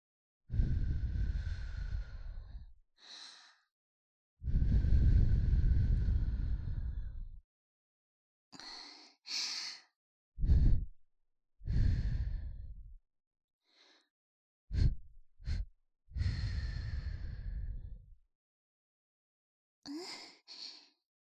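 Gentle blowing of breath: many soft, airy exhales, some long and drawn out, others short puffs, separated by brief pauses of silence, with no talking.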